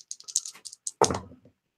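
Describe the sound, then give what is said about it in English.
Three dice shaken and rolled during a tabletop board game: a quick run of light clicks, then a sharp clatter that rattles for about half a second and dies away. No talk. “When you test, you actually get to roll 3 dice and pick the one you want.”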